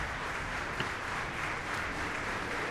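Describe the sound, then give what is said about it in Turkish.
Long applause from an audience after a symphony orchestra finishes a Gershwin overture at a concert. The clapping blends into a faint, even wash with no distinct single claps. “Uzun alkışlar eşliğinde siz de duydunuz.”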